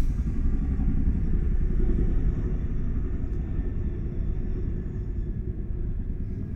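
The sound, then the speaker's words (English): A helicopter flies overhead as a steady, heavy low rumble that fills the whole clip and eases only slightly in loudness toward the end, with no voices. “helicopter. Damn helicopter. Go away.”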